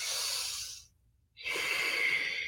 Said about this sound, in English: So when you first start breathing, it might be a little shorter and more shallow, right?